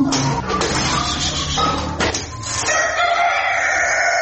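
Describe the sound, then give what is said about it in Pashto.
Domestic chickens cluck and a rooster crows at a household poultry farm in the Sarmorghab area near Tarinkot, Uruzgan province. Overlapping bird calls sound continuously and fairly loudly, with no talk. “شپږشت کلن نوراغا په خپل کور کې د کورنۍ چرګانو په پالنه بوخت دي”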